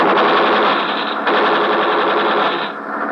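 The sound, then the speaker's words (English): Rapid gunfire, warning shots fired in front of a man during a ship search, forms a loud, dense, continuous rattle that holds steady for about three seconds and eases slightly near the end, with no talk over it. “We fire in front of him.”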